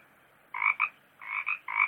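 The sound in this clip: Frog croaking in three short bursts, each made of quick rattling pulses with a brief gap between them, fairly loud against a quiet background.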